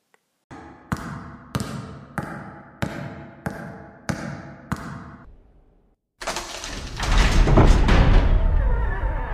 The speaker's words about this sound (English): with a pungently stinking seawater that's coming in through some submerged inlet.